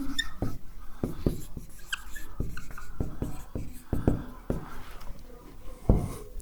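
Writing on a board makes many short, faint scratchy strokes and taps in an irregular rhythm, with no talk over them.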